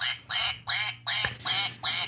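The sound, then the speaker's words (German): A duck quacks in a studio, giving six loud, nasal quacks in a steady rhythm with short gaps between them. Each quack is harsh and buzzy, and nothing else is heard. “Und hier im Studio eine Ente.”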